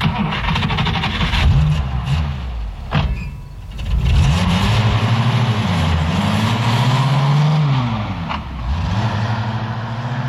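A car engine accelerating, its loud revving pitch climbing and dipping repeatedly, with a brief lull partway through before it surges again.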